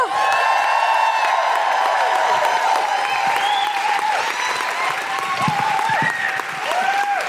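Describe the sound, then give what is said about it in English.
Audience applauding and whooping as a guest is welcomed onto a stage: dense, loud, continuous clapping with high cheers and whoops scattered throughout. “Please welcome to the stage with a huge Guilty Feminist woohooing noises, the wonderful Susan Wokoma!”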